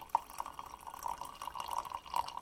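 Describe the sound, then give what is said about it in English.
A drink being poured from a pot into a mug: a faint, steady trickle with small splashy drips running throughout. “So, now it's time to just pour it into Shirley's favorite cup, or mug actually.”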